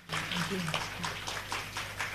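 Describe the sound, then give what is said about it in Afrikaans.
An audience applauding to congratulate the author of a novel at a book event, with claps striking in a quick, steady, even rhythm throughout. “Kom ons klap vir hande en ons sê net eers geluk.”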